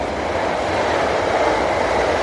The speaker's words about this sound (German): Hier fährt ein Zug vorbei.